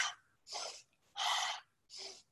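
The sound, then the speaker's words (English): Breathing during a yoga windshield-wiper twist, with air drawn through the nose and let out through the mouth: four airy, breathy rushes separated by short silent pauses, the third longest and loudest. “Inhale, left, again through the nose. Exhale, mouth.”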